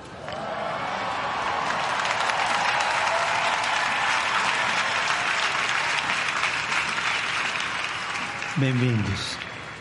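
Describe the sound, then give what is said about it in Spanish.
A crowd of young people applauds and cheers for the pope at a gathering in Lisbon, loud continuous clapping and crowd roar across the whole stretch with voices mixed into the din. “Me alegra verlos. Me alegra escuchar el simpático alboroto que hacen”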